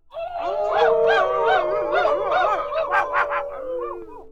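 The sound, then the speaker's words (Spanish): Several voices imitate hungry wolves howling, a loud overlapping chorus of wavering, sliding howls that holds for about four seconds before thinning out at the end. “Lobos aullaban de hambre. A ver, mis lobos.”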